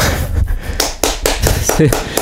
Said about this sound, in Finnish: Siinä tästä tuli akateemiset aplodit.